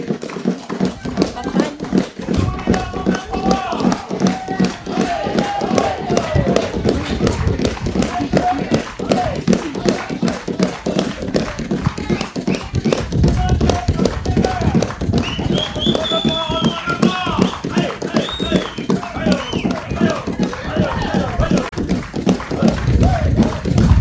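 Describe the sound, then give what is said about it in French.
An audience with children claps hands in rhythm, a steady, even beat of sharp claps running unbroken throughout, while voices sing or chant along over the pulse. “On frappe les mains, s'il vous plaît.”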